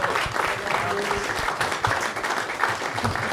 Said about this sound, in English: So if you could please start the round of applause.